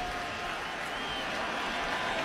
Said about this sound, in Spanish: El público aquí animando a su bateador.